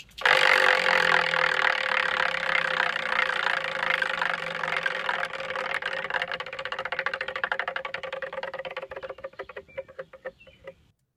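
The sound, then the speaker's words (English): A prize wheel spins with rapid ratcheting clicks that gradually slow and grow sparser, fading out as the wheel comes to rest after about eleven seconds. No voices are heard. “We give this wheel one, one last spin. spin.”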